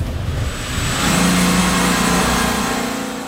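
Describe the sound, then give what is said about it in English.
A car drives through the village of Buchenbach, its engine a steady mid-pitched drone with road rumble that swells slightly midway and then eases off, with no talking. “So right now, we are driving through the village of Buchenbach towards the workshop where our mechanic AJ is working.”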